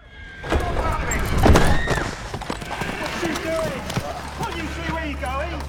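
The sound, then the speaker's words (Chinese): Hooves clatter irregularly as a horse-drawn carriage is forced to stop in a Sherlock Holmes action film, with rumbling wheels and people calling out over the clopping. “眼见艾琳进入一架马车，我发挥四十年老碰瓷的技巧，巧妙地逼停马车。”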